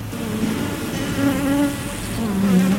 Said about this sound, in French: On arrive, on ouvre l'une des 6 ruches. Je remets un peu de fumée dans le haut au moment d'ouvrir le dessus.